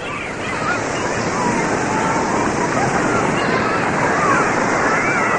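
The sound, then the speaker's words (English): Ocean waves wash onto an Atlantic beach. The surf makes a continuous, even hiss and roar with no distinct breaks between waves. “Мартин Лернер и его семья находятся на пляже на берегу Атлантического океана”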